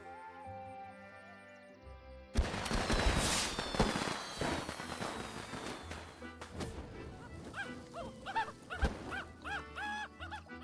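Fireworks are set off after a short passage of music: a sudden loud burst, whistling streaks and scattered crackles that gradually thin out.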